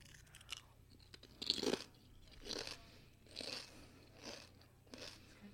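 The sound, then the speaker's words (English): A Deep River sea salt and apple cider vinegar chip is bitten and chewed in several crisp crunches at an uneven pace. One crunch early on is the loudest. The sounds are quiet and come alone, without talk. “I've got to savor my chip.”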